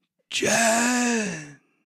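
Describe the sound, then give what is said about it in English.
A human voice imitates a dying creature's last gasp during a role-playing game: one drawn-out, breathy groan of about a second and a half that trails off at the end. “As Mango landed on this creature, you do hear kind of a last gasp come from it”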